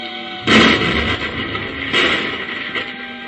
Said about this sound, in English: I'll use a few explosive pellets from this hand detonator. What about these walls? They're none too solid. We'll have to chance it. Get back a little further